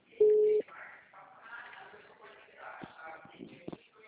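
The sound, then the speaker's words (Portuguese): A phone line gives a single short, steady, mid-pitched beep after a dropped call, loud against the quiet, followed by faint, murmuring voices. “a ligação caiu”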